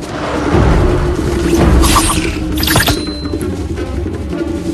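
A large creature crashes heavily through a forest, making a loud low rumbling roar with deep booms and a few sharp splintering, snapping bursts near the middle.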